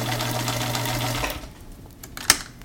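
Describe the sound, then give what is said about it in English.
A sewing machine stitches two fabric arm pieces of a stuffed bear together, right sides facing. It whirs steadily for just over a second, then stops, and a single faint click follows. “Take two of the arm pieces, place the right sides together, sew all the way around, leaving a turning gap.”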